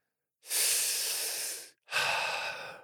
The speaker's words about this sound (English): Take a nice deep breath.